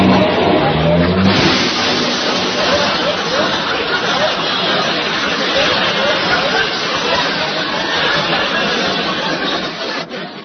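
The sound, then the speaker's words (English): A car engine runs steadily as the car backs out of a cramped garage, a loud continuous rumbling drone lasting the whole stretch, with a brief voice near the start. “There ain't much room here in this garage. And I gotta back out very carefully.”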